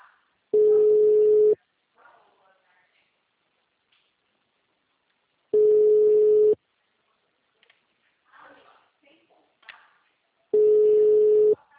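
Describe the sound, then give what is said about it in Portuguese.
Telephone ringback tone on a call that goes unanswered: three steady one-second tones of the same pitch, spaced about five seconds apart, with near silence between them. “Tá chamando aqui. Calma.”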